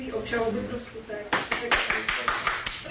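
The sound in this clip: Hands clap in applause at the announcement of a court verdict that acquits two Georgian citizens. A moment of talk comes first, then a steady run of sharp, evenly spaced claps.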